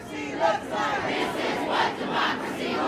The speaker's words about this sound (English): Outside the airport, around 1,000 protesters greeted travelers with signs that said Muslims are welcome here and don't normalize hate.